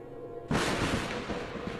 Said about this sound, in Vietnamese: bỗng một tia sét từ trên trời giáng xuống, xuyên qua mái nhà đánh thẳng lên bàn thờ, gây ra một tiếng nổ rúng động.